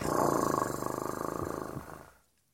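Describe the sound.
A domestic female cat purrs with a deep, steady rumble made of rapid rhythmic pulses. The purr is fairly loud at first, then fades away into silence at the end.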